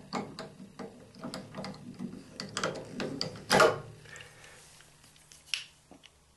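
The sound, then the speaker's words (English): Ratcheting clicks of a Dunlop Turbo Tune string winder cranking a guitar tuning machine to loosen a string: many small, irregular ticks and clicks, with one louder burst midway and a sharp click near the end. “And it's called the Turbo Tune. So you place it under the tuning machine and you just crank and loosen.”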